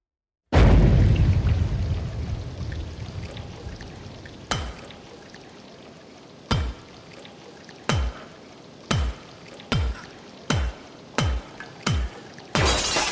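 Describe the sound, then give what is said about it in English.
An object smashed with a baseball bat on a metal table: one loud crash with a long ringing decay opens, followed by a run of sharp metallic blows, widely spaced at first, then coming faster and more regularly. “I smashed it with a baseball bat on a metal table. That's what that sound is. I'll play it now so you can hear it.”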